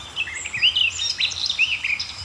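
A warbler sings a quick, bright stream of high chirps and scratchy twittering notes in short, varied phrases, alone and fairly clear throughout.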